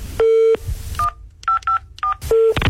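Telephone tones sound after a call is hung up: a long low beep, then several short higher-pitched beeps, then another low beep, clear and fairly loud.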